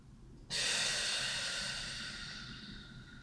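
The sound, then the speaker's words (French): A forceful exhalation released all at once after holding the breath during a relaxation exercise, with the pelvis and buttock muscles tensed. The breath is a single loud, sustained, airy rush lasting nearly three seconds and easing slightly toward the end. “Et expirez d'un coup en chassant toutes vos tensions, toutes vos peurs.”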